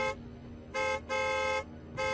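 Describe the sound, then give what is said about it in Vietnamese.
An approaching Mazda honks its car horn from behind, giving several steady toots separated by short gaps, loud and clear with no talk. “Anh ta chưa nói dứt lời thì có tiếng còi xe hơi từ phía sau.”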